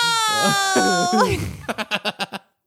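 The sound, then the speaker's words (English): A person vocally imitates a wailing Victorian child with a high, wavering wail that bends downward, then breaks into six short, rhythmic sobbing bursts before stopping. “I also think a wailing Victorian child, because the main part of it is that they're wailing the entire time.”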